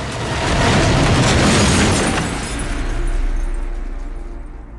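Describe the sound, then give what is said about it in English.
A horse-drawn carriage explodes in a fireball with a heavy, roaring rumble that swells, dips briefly and surges again before slowly fading. “Consumed by flames, the carriage breaks apart from the horses. It explodes in a fireball, flipped over and over by the ferocity of the blast.”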